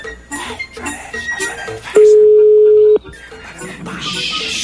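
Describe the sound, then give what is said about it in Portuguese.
A telephone line tone sounds on a call-in line: one steady, mid-pitched tone that holds for about a second, loud against a busy, noisy background. “Vamos lá, mais uma ligação.”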